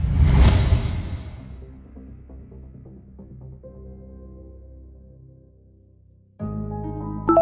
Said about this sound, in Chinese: 一颗红色的躲避球嗖的一声刺破空气，以令人惊恐的速度砸向那处废墟。